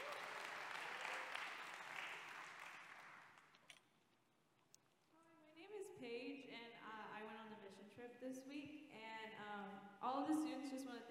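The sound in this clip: Applause from a church audience welcoming two students who came to share about their trip: a steady wash of clapping for about three seconds that fades away before a voice begins speaking.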